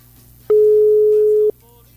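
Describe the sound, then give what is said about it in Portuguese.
A telephone ringing tone sounds on an unanswered call returned from a radio station: one steady beep lasts about a second over a low, constant background hum before cutting off. “O último toque. Vamos ver o último toque. Não atende. Não atendeu.”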